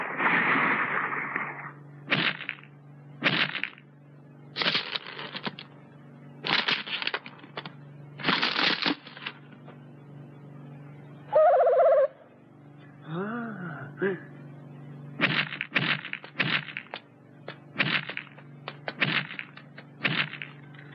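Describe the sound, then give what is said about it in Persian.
Eggshell cracking as a chick hatches: many sharp, dry crackles in uneven bursts, with a short warbling cry partway through. “ولی مثل این که جوجهش میخواد بیاد بیرون.”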